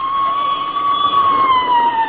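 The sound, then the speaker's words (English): A police squad car siren wails without a break, one loud sustained tone that sags slightly lower toward the end. “There goes another squad car”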